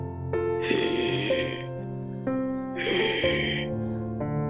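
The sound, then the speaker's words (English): Two loud, raspy deep breaths from a person with only one lung, each a noisy rush of air, heard over a steady tonal musical drone. “Sorry, I had to take a few breaths.”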